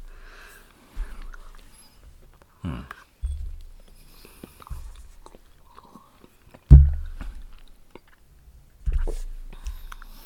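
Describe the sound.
Chewing of strawberry-flavoured chocolate candy: several soft crunches and bites come in short, separated bursts, with faint whispery voices in the quiet gaps.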